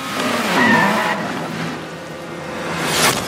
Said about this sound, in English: So this is what popular video games sound like.